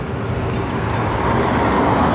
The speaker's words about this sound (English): Cars lined up in the road waiting to get into the parking garage driveway.